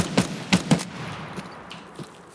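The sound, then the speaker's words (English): Gunfire from a video game shooter: three sharp shots in quick succession, followed by a few fainter, scattered reports over the next second and a half. “Did I hit that guy? I don't think I did, right? Can't possibly. I think he's down. Did you shoot at him as well? I shot at him as well.”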